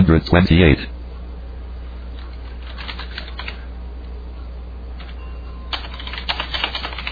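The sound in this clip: Typing on a computer keyboard comes as short clusters of light key clicks separated by pauses, over a steady low hum, with a brief loud voice at the start.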